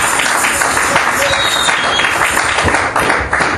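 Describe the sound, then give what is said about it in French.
A church audience claps for Jesus Christ during a service, sustained loud clapping with voices mixed in that carries on throughout. “Acclamons très très fort pour le roi de roi. Let's clap for Jesus Christ.”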